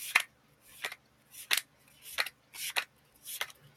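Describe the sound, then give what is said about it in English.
Tarot and oracle cards being flipped: six crisp, papery flicks in a steady, even rhythm, each a short bright burst with quiet gaps between, and no voices. “I love the sound of tarot cards and oracle cards being flipped.”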